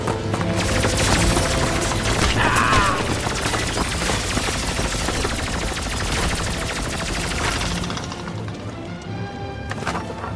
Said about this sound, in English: Weapon status engaged. What the heck is that? Sentry bot, run for your lives! Threat analysis. Red. Weapons free.